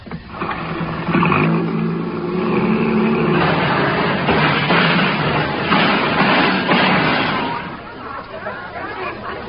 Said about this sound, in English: Come on, let's get in the front seat and I'll drive.